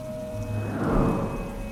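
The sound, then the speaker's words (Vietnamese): Heavy rain pours down on open fields in a dense, steady roar that swells slightly toward the middle before easing back, with no voices present. “Không có tiếng ai đáp lại ngoài những cơn gió rít và tiếng nước mưa ầm ĩ rơi trên mặt ruộng.”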